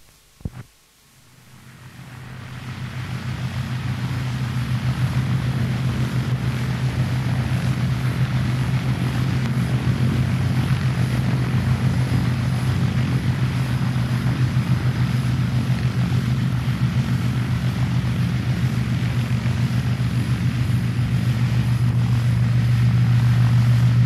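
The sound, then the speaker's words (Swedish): A Swedish Air Force Douglas DC-3 (Tp 79) propeller transport taxis out at Gävle-Sandviken airfield. After a sharp click, its piston engines swell into a loud, low, throbbing drone that holds steady throughout, with no voices. “vi börjar med en av flygvapnets sista DC-3er, TP-79, nummer 794, som här taxar ut på Gävle Sandvikens flygplats, Rörberg, den 16 november 1983.”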